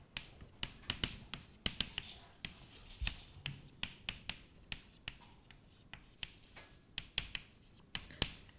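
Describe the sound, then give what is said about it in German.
Writing on a board during a lecture: many quick tapping and scratching strokes in an irregular rhythm, quiet and without talk. “Das schreibe ich gleich mal auf.”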